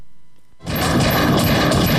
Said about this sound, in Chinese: 大新举枪向警方射击